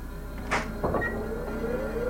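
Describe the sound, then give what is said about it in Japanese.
A door being opened makes two brief, muffled knocks or rattles in quick succession, followed by a low, steady background hum. “この戸開いてくれますように。”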